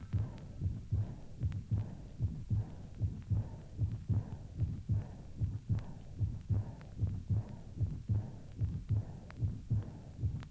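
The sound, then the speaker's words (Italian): Heart sounds with the early diastolic murmur of aortic insufficiency: a steady, regular run of many low thumping beats, each trailed by a soft whooshing smear, repeating evenly throughout with no voices. “Come esempio, ricordiamo il soffio immediato diastolico, che è patognomonico per l'insufficienza aortica.”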